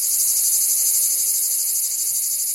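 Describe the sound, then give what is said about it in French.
Cicadas singing in a southern region, a continuous, very high-pitched shrill buzz that holds steady and fairly loud throughout, with no voices. “Commençons par les plus connues de nos régions méridionales, les cigales.”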